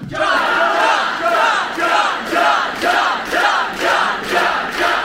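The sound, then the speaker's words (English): Crowd at a live show cheering and chanting, loud shouted bursts repeating in a regular beat throughout, with many voices blending together. “Come on, they're cheering for you. Look, that's the venue. I'm telling you. They're cheering for you.”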